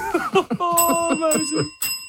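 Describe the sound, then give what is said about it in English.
A bell rings with bright, clear tones that sustain and overlap, struck again a few times in quick succession so the ringing carries through to the end. “And also, I hear the bell”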